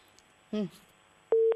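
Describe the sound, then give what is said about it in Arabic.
A telephone busy tone sounds after a caller's line to a studio drops. A short voiced syllable comes first, then a steady, pure mid-pitched beep starts near the end and holds briefly. “جميل، فقدنا الاتصال”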